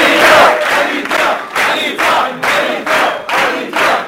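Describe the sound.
An audience cheering and clapping in a loud, regular rhythmic pulse of many beats, with massed voices rising on each beat.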